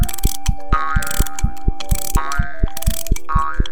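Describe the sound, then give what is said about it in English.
Mechanical ticking of a clockwork toy pony built from springs, screws and gears: loud, evenly paced ratchet clicks in a steady rhythm, with recurring bursts of whirring gears layered over them. “Sounds like a real pony. Giddy Up Buttercup is made of springs, screws, and gears.”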